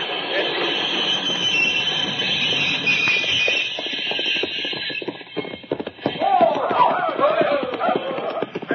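A moving locomotive as a 1953 radio-drama sound effect: a steady mechanical hum under a rapid, rhythmic clatter, joined in the later part by higher squealing, wavering tones.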